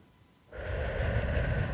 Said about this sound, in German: Atme weiterhin gleichmäßig. Ein durch die Nase,